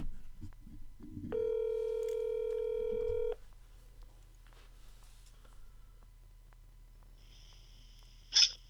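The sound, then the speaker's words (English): A telephone tone as a call is dialled, one steady electronic tone lasting about two seconds over a low hum, followed by quiet and then a brief bright high-pitched tone burst near the end. “dial the... Get Scotty Too Hotty on the line”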